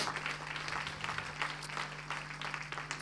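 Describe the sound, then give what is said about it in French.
Congregation applauding and cheering during a church service: dense, continuous clapping that holds steady for the whole stretch, with a low constant hum beneath it. “Et on peut acclamer Jésus, notre roi.”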